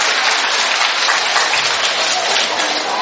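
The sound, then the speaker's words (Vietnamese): Applause from an audience at a religious gathering, a dense, loud, steady wash of many hands clapping at once that holds unbroken throughout, with no voices standing out. “Vỗ tay to lên chứ còn gì đâu mà không vỗ tay.”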